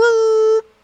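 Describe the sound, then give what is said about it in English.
A voice imitates a shofar horn blast with a single steady, buzzy held tone lasting just over half a second before it cuts off abruptly. “And the shofar horn emits a sound that's sort of like,”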